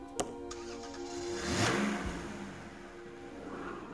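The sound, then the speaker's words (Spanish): A car engine starts and drives away: a sharp click, then an engine swell that builds to a peak and slowly fades into a low, thinning hum. “Desde allí, Woody pudo oír el coche de Andy arrancar y marcharse.”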